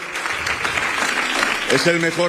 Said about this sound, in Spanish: Aplausos en la sede de Vox a esta intervención.